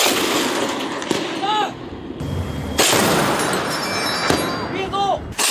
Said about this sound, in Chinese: 伴随着多次开火射击，海域水面浮雷被成功清除。